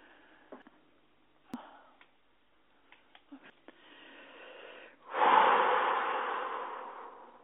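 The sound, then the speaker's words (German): A person breathes in and out during a guided breathing exercise. A few small clicks come first, then a soft, rising breath in, followed by a louder, longer rushing breath out that fades slowly. “Nochmal bitte einatmen, ausatmen”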